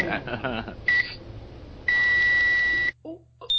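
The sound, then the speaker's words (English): A smoke alarm, set off after food was cooked in a microwave, sounds a few shrill electronic beeps, one held for about a second, following a brief stretch of a voice talking. “Oh, no, that's the smoke alarm. Yes, yes, I can hear the smoke alarm.”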